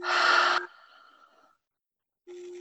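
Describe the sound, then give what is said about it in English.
A deep breath in and exhale during a guided breathing exercise: a loud breathy rush for about half a second, then a softer airy tail that fades out. A brief silence follows before another breath begins. “So take a nice breath in and exhale.”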